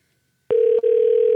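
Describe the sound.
A telephone intercept tone for a misdialed number begins after half a second of silence: one steady, mid-pitched electronic tone, briefly broken once, then continuing unchanged.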